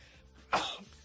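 A single sneeze bursts out suddenly after faint background hiss, a sharp loud burst that trails off quickly, held back during a live regional news broadcast.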